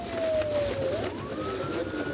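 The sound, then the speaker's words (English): A police siren wails during a high-speed car chase, its tone sliding down and then climbing back up over a constant rumble of road and engine noise. “It was another high-speed chase, sirens blaring.”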